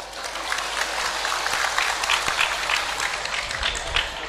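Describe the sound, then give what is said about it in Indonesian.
Audience applause after a speech: a continuous crackling wash of many hands clapping at an even level, with a faint low rumble underneath. “Boleh tepuk tangan.”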